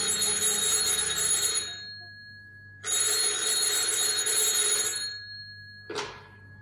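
A telephone bell rings in a radio drama, two long rings of about two seconds each separated by a pause, followed by a brief sharp sound as a third ring cuts off.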